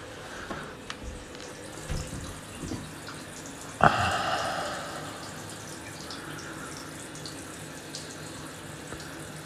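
Shower water runs and falls in a faint, steady hiss, with one sharper splash or knock partway through before the flow settles back.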